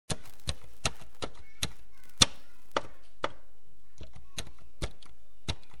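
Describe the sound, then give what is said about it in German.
Numbers tapped one after another on a calculator keypad: many crisp, dry clicks at a fairly even, unhurried pace, fairly loud and alone with no talk. “holte den Taschenrechner aus und tippte die Zahlen nacheinander ein”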